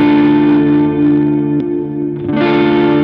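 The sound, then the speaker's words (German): An electric guitar runs through an Earthquaker chorus pedal set to a slow modulation, giving loud sustained chords with a gentle shimmer, a brief dip, then a fresh strum that rings on. “Modulation von diesem Earthquaker ist aber auch schön. Also das wäre jetzt der Chorus. Alles ziemlich slow eingestellt.”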